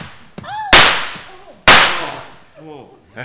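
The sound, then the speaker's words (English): Two loud, sharp gunshots crack about a second apart in a dramatized scene of a fleeing criminal being ordered to stop. Each bang trails off in a decaying echo, and brief shouted voices come just before and after them. “Hey, Matthew, stop them! Stop, Blackie, or we'll shoot!”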